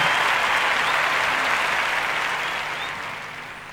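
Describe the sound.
Audience applause for a philharmonic orchestra concert: a dense, sustained wash of many hands clapping, strong at first and then slowly fading toward the end.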